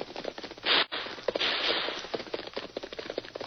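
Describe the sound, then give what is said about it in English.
Gunfire in a gunfight: dense, sharp cracking shots in rapid, overlapping bursts, with one louder sustained burst early on, then a steady run of quick irregular reports. “what's all the shooting for?”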